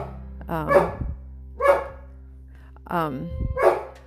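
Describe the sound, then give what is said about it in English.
A dog barks a few sharp, loud times in short bursts, mixed in with a person talking. “This dog is plumb crazy, I'm telling you. I apologize for the barking.”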